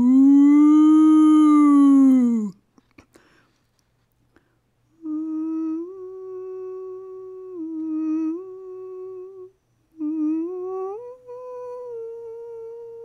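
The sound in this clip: A voice imitating a cow mooing gives a long, low, drawn-out moo that trails off, followed by several more sustained humming tones that step up and down in pitch.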